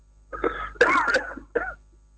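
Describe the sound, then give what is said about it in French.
An ill man calling in coughs a few times, harsh, throaty bursts with a rough voiced edge, the middle one longest and loudest, separated by short pauses. “Il est en train de tousser là.”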